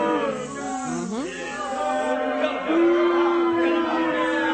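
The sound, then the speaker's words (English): A crowd booing sound effect sustains drawn-out, low voiced boos that swell louder partway through and hold steady to the end. “So let me give y'all these boos.”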